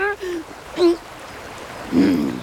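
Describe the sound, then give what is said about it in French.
Current of a flowing stream, a continuous soft rushing hiss that runs beneath intermittent voices. “Pour que le repas soit complètement parfait, je vais aller manger aussi ce qui se cache sous l'eau. Vraiment? Tu ne risques pas de glisser à cause du courant?”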